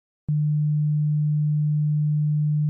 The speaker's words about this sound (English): a triangle wave can be actually made out of sine waves, which are the purest wave, in a sense, which sound like this.